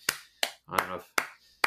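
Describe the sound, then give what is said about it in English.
Four sharp, separate hand claps at an uneven pace, given as a clap of approval to Games Workshop, with a short burst of voice between the second and third. “that's my non-golf clap to Games Workshop.”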